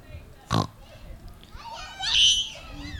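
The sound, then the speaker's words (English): Pig grunts and squeals played for an animal-guessing game: a short, harsh grunt, then higher squealing calls, with children's voices present. “Pig! It is a pig, okay.”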